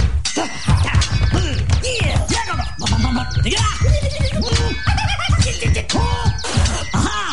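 In a sword fight, metal blades clash and scrape in a busy, continuous flurry of ringing clangs and scratchy strikes, loud throughout.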